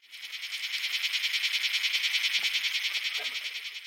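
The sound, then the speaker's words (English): A locust, a kind of grasshopper, making a high, buzzy pulsing call. Many quick, evenly spaced pulses form a steady rhythm for about four seconds, with nothing else heard. “Locust! Locusts are a kind of grasshopper,”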